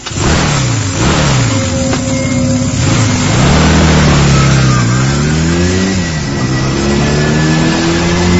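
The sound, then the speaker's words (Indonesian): A motorcycle engine revs loudly and pulls away, its pitch climbing and dropping several times as it accelerates. The roar is continuous, with no voices. “Aku segera meraih motor dan berangkat.”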